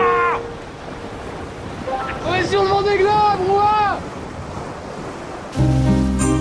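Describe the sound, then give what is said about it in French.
Steady roar of wind and surging waves around a racing sailboat during the Vendée Globe, with high wavering whistling tones rising and falling midway and a louder, denser burst of sound near the end. “un bateau pendant le Vendée Globe, ça fait un bruit de dingue, on se croirait dans une machine à laver”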